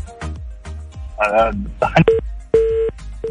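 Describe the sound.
Telephone tones as a caller is connected on a radio call-in show: a few dial-like beeps and steady tones mixed with bursts of talk.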